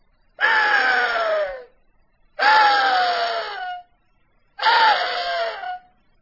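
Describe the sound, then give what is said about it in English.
A latex-reed call imitates an axis deer buck screaming in rut with three long, hoarse, wailing blasts. Each lasts about a second and a half, they are evenly spaced with short gaps, and each dips in pitch at its tail. “Well, let's show them what an axis buck sounds like when he's screaming.”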